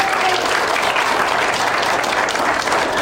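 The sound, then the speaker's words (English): A church audience applauds after a Palm Sunday sermon. The clapping is loud and steady, a dense wash of many hands that holds evenly for the whole stretch without breaks. “Well, thank you, Tim, for that message. Give Tim a hand,”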